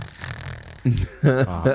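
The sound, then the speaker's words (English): A voice imitates piggy snoring, giving a short, rough, snorting rasp that is quickly followed by speech. “And it also records snoring. And sometimes it's just like really standard, like breathing. Yeah. And then other times it's like so piggy.”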